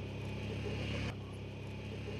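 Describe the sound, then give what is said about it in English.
A 4x4 relief vehicle carrying supplies to refugees drives through a region with few real roads, giving a steady, even engine drone and rumble with a slight dip partway through. “A 4x4 UNICEF vehicle carries supplies for the refugees.”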